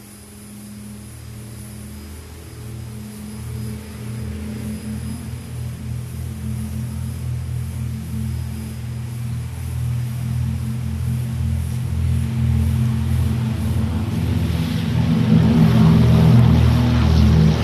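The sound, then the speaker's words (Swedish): A Swedair Douglas DC-3 propeller airliner takes off from Gävle-Sandviken airport in 1984. Its deep, throbbing engine drone builds steadily louder throughout. “Nu ska vi lyssna till en start, men den här gången är det Swedas DC-3 Bertil Sigurd Martin som startar från Gävle Sandvikens flygplats den 31 juli 1984.”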